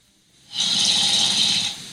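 A recorded snore played back from a sleep-tracking phone app: one loud, rasping, buzzy breath lasting over a second, with a hissy upper edge, then easing off.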